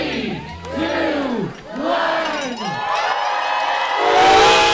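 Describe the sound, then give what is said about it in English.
A crowd at the start of the Klondike Road Relay in Skagway shouts a countdown in unison, three loud calls in a row, then bursts into cheering at the end. “This is the sound of the Klondike Road Relay starting in Skagway last weekend.”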